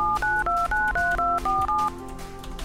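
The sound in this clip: A telephone number is dialed as a quick run of touch-tone beeps, each a steady two-note tone separated by short gaps. A low line hiss follows once the dialing stops.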